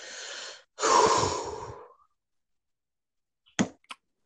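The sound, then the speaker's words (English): A deep breath, heard as two breathy rushes: a short one, then a longer, louder and fuller one that fades out, followed after a pause by a couple of brief sharp clicks. “Let me take this deep breath. Take a deep breath.”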